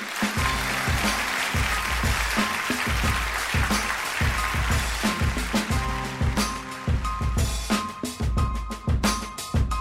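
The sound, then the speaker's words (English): Dense, steady audience applause greets the commencement speaker, a loud continuous wash of clapping over a regular pulsing low beat that runs the whole time. “And now put your hands together. It's time to be inspired. This year's commencement speaker, the one and only Josh Clark.”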